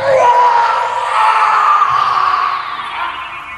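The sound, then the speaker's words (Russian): A terrible hoarse scream cuts through the silence of the night: one loud, raspy, sustained cry lasting several seconds, rising sharply at the start and then easing slightly toward the end. “Вдруг тишину ночи прорезал ужасный хриплый крик, которого я не слышал никогда в жизни.”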